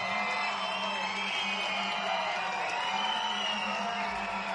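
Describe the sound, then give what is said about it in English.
Crowd noise at a baseball stadium during a game, a steady, unbroken murmur and roar with no distinct peaks, continuous from start to finish. “Crowd not going anywhere. You can hear him in the background as here comes Mike Steed out to the mound to talk with Griswold.”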